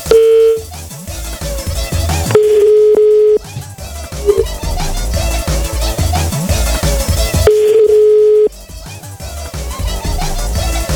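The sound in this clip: A telephone ringback tone sounds while a call is being placed. Three loud, steady low beeps, each lasting about a second, repeat at long intervals, with a busy jumble of other noise between them.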